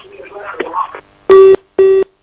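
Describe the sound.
After a caller's line cuts off, a busy tone follows a second of muffled voice and noise: two full, evenly spaced beeps, with a third just starting.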